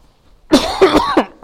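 A person coughing in a short, harsh fit of several coughs in quick succession, loud and alone, after a moment of near silence.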